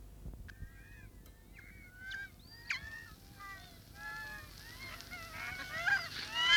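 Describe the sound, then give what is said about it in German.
Seagulls calling in a flock, many harsh, overlapping squawks with short rising and falling inflections that grow denser and louder toward the end. “Ich hasse die Möwen”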